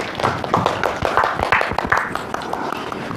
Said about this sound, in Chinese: 接下来我们掌声有请小耳哥哥。